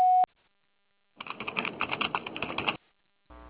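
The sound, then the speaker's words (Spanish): A voicemail recording tone opens with a brief, clear electronic beep. It is followed by a buzzy, crackling burst of noise and then a second tonal sound at the very end. “Tono, grabe su mensaje.”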